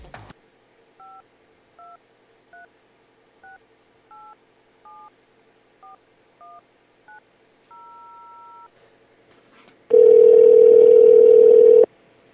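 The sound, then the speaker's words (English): A telephone number is dialed on a touch-tone keypad as a quick series of short, evenly paced electronic beeps. A longer steady tone follows, then a loud, harsh sustained tone near the end. “Get them on the line. Dial it up, man.”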